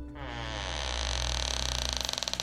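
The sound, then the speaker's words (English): Drawn-out creak of a wooden barn door pulled open by its handle, a loud groaning squeal that holds steady, then breaks into rapid stuttering pulses toward the end. “I'll grab the door handle and just start hanging on it and try and pull one of these barn doors open. Okay. Well, it now opens.”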